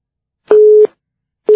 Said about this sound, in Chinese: 这个电话真的是麻烦，刚刚打通了就挂掉了